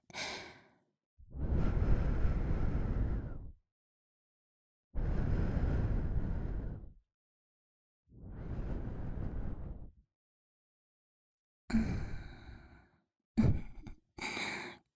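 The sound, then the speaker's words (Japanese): Breath is blown softly into the ear holes in three long, airy whooshes separated by silences, followed by a few shorter breathy puffs. “こうやってお耳の穴ふうふうするだけで、”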